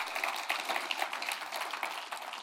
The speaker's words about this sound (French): Est-ce qu'on pourra applaudir notre Dieu qui est celui qui pourvoit?